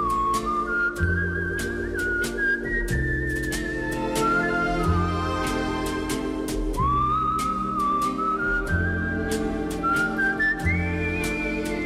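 Human whistling carries a slow, sustained melody over steady instrumental accompaniment. The notes glide smoothly between pitches and sound fairly loud and continuous, with no voices.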